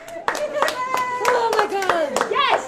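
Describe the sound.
Coffee shop workers cheer and clap in their store lobby while watching union election results come in on a laptop in Superior. Sharp handclaps mix with excited voices, and a high whooping shout sounds near the end.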